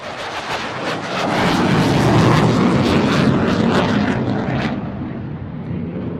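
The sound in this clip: An aircraft engine roars as an airplane arrives for an evening flying display. The loud, broad rumble swells over the first second, holds steady and then eases slightly toward the end, with no voices.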